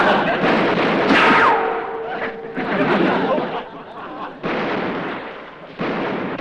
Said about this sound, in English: Hey, watch where you're shooting. Gotta shoot over their heads. We've got the real bullets, remember?